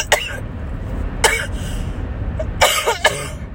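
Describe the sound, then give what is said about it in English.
Several short, harsh coughs from a person irritated by pollen, coming in uneven bursts separated by quiet gaps. “I'm sitting here coughing up a lung because of pollen.”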